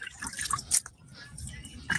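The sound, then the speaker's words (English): Water dumped by hand onto already moist garden soil sown with seeds gives quiet, scattered wet drips, splats and squishes, irregular and faint, with a few sharper droplets standing out. “and I just dump the water in. I mean, I don't want to get it soaking wet, just enough because it's already a little moist.”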